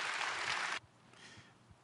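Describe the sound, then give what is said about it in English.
Audience applause welcomes a guest speaker at a bilingual church gathering: a dense, loud wash of clapping that cuts off abruptly after under a second, leaving faint scattered claps. “所以我们用最热烈的掌声来欢迎”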